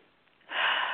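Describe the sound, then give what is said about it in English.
A deep breath taken during a guided exercise: near silence gives way halfway through to a long, steady, airy inhale that holds at an even level until the end. “Take a deep breath.”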